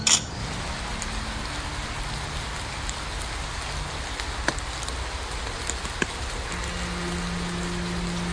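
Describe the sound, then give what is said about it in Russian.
Steady rain falling in a remote backwoods area, a continuous even hiss with a few faint scattered drop clicks and no talk. “Еще дождь этот непонятно откуда взялся.”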